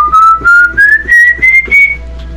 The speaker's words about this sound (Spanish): ese chiflido dice que lo escucharon en el monte donde están unas parcelas, pero lo escucharon en 3 ocasiones el chiflido.